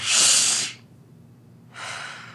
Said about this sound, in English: We are going to take another deep breath